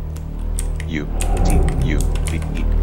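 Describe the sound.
Typing on a computer keyboard while entering a file name in a game's load dialog, with light, quick key clicks under a speaking voice and a steady low hum.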